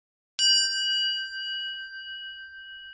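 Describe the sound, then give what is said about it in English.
A bell rings out once, a bright metallic ding followed by a long, steady ringing tone that slowly fades, heard alone. “That's a bell ringing.”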